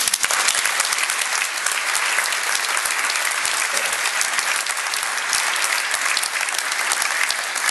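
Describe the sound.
Dense, sustained audience applause welcoming a speaker to the podium, a loud, even wash of many hands clapping without pause for the whole stretch.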